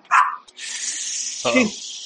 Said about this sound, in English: guard dog, somebody woke the guard dog up